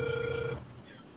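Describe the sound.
A telephone ringback tone sounds while a call is being dialed: one steady, buzzy, faint tone holds for about half a second, then gives way to quiet line hiss.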